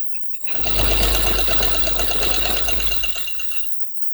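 A sewing machine in use at home: a steady, fast mechanical whir with rhythmic rattling that starts abruptly, runs for about three seconds, then winds down and stops.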